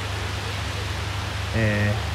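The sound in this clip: Very heavy rain pours down in a dense, steady hiss that fills the whole clip. A brief human voice rises over the downpour near the end.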